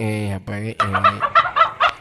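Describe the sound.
Birds calling with a chicken-like sound: a few drawn-out calls, then a rhythmic run of short, loud clucks, with no talking over them.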